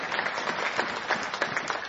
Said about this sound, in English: So give a hand clap to Jesus.